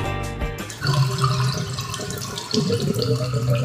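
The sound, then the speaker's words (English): Water running and gurgling in household drains: a steady, loud rush of flowing water with bubbling and low glugging throughout, and no voices. “Is that what you hear from your drains? If it is, there could be a problem with your sewer”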